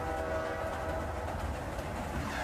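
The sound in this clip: A train's steady rumble and rattle on a rail ride near Kota Kinabalu in Borneo, continuous and dense throughout with no voices.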